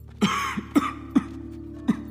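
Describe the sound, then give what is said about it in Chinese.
A familiar person coughs several times in short, sharp bursts at uneven intervals, each with a rough, throaty edge over a faint steady hum. “乐月耳边传来一声熟悉的咳嗽”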